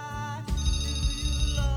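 A telephone rings with an incoming call to a radio station's phone line, a loud continuous electronic ringtone whose tone shifts partway through.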